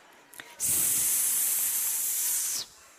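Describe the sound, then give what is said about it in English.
A cat hisses in one long, loud, breathy burst of about two seconds that starts and cuts off abruptly, with no other sound around it. “cats hissing. Can you make a hissing sound? Does your cat ever hiss?”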